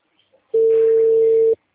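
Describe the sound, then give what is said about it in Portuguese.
A single steady telephone tone from an unanswered call going to voicemail, holding one constant mid pitch for about a second after a moment of near silence. “Tentando ligar. Nada ainda. Deixe sua mensagem na caixa postal.”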